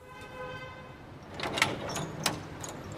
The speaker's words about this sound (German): Schwerfällig öffnen sich die eisernen Türen.